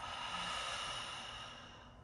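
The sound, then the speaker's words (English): A long breath let out through an open mouth makes a soft, airy hiss that holds steady, then tapers and fades toward the end, with no talk over it. “open your mouth. Exhale, let your breath go.”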